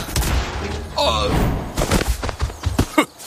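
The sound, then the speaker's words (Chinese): Heavy punches land in a martial-arts 'tiger fist' attack after the ammunition runs out: a voice rings out briefly, then a rapid flurry of loud thuds and impacts follows. “没子弹了， 看我的猛虎拳。”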